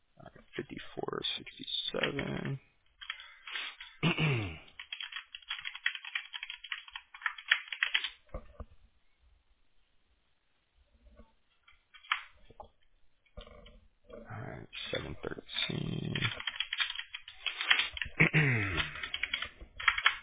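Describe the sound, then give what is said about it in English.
Computer keyboard typing while copying and pasting text, with quick bursts of keystrokes, a long quiet pause midway, then more rapid clattering keys. “I'm going to copy and paste the subcategories in your vertical too. That way you could just see them in writing.”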